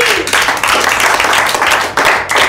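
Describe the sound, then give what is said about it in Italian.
Audience applause at the close of a live session: dense, sustained clapping from many hands, loud and steady across the whole stretch with slight swells, no voices standing out. “fatevi un applauso.”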